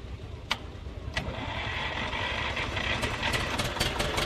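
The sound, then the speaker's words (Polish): An Ursus C328 tractor engine starts with a couple of sharp cranking clicks, then settles into a steady, low, rumbling idle that holds evenly and fairly faint to the end. “Odpalił, oczywiście. Jeszcze miesiąc temu ten Ursus C328 pracował w gospodarstwie państwa Kaźmierczaków pod Kościanem.”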